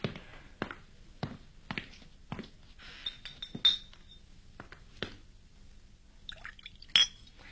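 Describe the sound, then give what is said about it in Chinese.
Wine being poured and glasses clinking in a toast: a string of sharp glassy clinks and drips at irregular intervals, a few of them ringing with a bright sustained tone. “来，为我们的合作干杯。”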